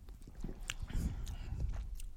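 Mouth sounds of someone taking a first taste of Wrexham lager: soft, wet sips, smacks and a swallow, quiet and irregular, with no talk.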